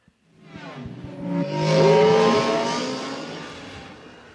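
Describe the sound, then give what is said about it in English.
The Return of the Jedi speeder bike sound effect, a roaring, engine-like whoosh that swells to a loud peak midway and then gradually fades. “Is it a speeder bike? Is it Return of the Jedi speeder bike? Yes, it is.”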